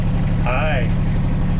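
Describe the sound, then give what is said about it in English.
Engine drone of a two-wheel-drive side-by-side off-road utility vehicle driving through woods, a steady low rumble that persists throughout while a brief voice rises over it. “Which is a machine that looks like the result of mating a golf cart with a dune buggy. Pretty amazing. Yeah, this machine's a beast.”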